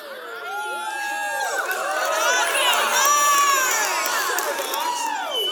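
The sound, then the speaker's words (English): Crowd cheering with whoops and high shouts from many voices. It swells in loudness early on and stays strong and sustained to the end. “That is the only time anyone has ever cheered for that.”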